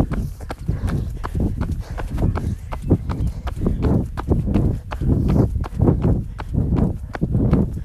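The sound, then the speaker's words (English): Footsteps of people jogging easily in a fitness session: a steady run of soft, regular footfall thuds at an even pace, continuing throughout. “Going in 5 seconds, small jog. 3, 2, 1, let's go. Just jogging nice and easy.”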